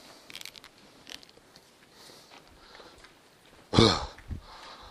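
A burp after dinner bursts out near the end as one loud, rough, low belch, followed by a smaller gurgle, after a stretch of faint rustling and small background noises.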